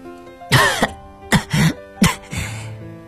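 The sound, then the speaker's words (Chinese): A wounded man coughs repeatedly while collapsing on dusty wasteland ground: a few harsh, rasping bursts spaced unevenly, each loud and ragged, with throaty, strained tails between them and no speech. “他不断地咳嗽着”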